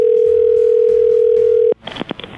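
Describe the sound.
A steady telephone dial tone for an outgoing call holds one even pitch for under two seconds, then cuts off abruptly into brief clicks and rustling.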